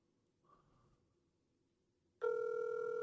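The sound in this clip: An unanswered call rings out as a steady telephone ringback tone that starts suddenly after a couple of seconds of near silence and holds evenly to the end, with a faint murmur near the start.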